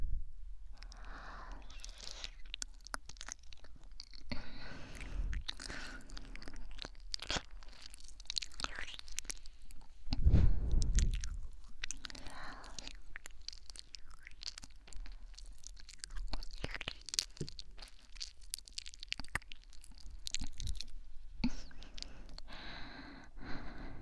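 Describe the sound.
Wet, smacking kissing sounds, many soft irregular lip smacks and moist mouth noises, faint and close, with no talk.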